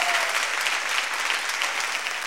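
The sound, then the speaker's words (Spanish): A concert audience applauds as a singer is introduced on stage, a dense, steady rush of many hands clapping at an even level throughout. “Un aplauso, Joaquín Sabina.”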